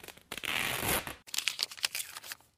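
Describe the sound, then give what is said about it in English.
A bandage is unwrapped from an injured, previously broken ankle, producing dense crinkling and rustling of fabric that runs continuously, breaks off briefly, then resumes in choppier, scratchy bursts. “help me unwrap it.”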